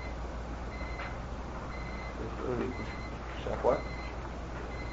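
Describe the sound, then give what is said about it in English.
Electronic beeping like an alarm clock: a few short, high, steady-pitched beeps repeat at intervals, faint beneath constant background hiss. “Sounds like an alarm clock.”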